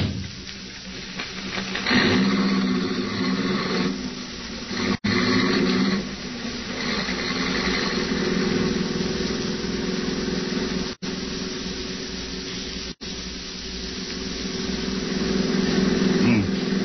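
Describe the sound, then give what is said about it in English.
A car engine roars steadily as the car is driven fast, a continuous low drone running under people talking. “I hope you don't mind me driving so fast. I'm in a terrible hurry.”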